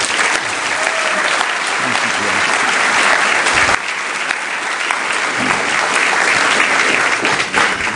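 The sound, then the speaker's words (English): Warm audience applause welcoming Steve Forbes to the stage at a Commonwealth Club event: loud, sustained clapping from a crowd that continues evenly throughout. “Please give a warm welcome to Mr. Steve Forbes.”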